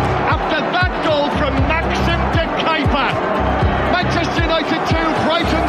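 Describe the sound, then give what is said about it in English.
Football crowd booing at Old Trafford during a Manchester United versus Brighton Carabao Cup match, a steady roar underneath a commentator's continuous voice. “Yeah, you could hear the boos in the background there.”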